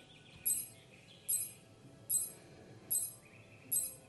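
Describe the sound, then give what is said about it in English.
A video game's compact sonar signals a detected wall with five short, high-pitched beeps at a steady, even rhythm, faint over a low, murky background. “If the sonar detects a wall, it makes a sound like this.”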